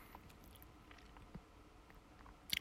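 Chewing of a corn-flavoured snack, quiet crisp crunches spaced through the moment, with sharper, brighter crackles right at the end.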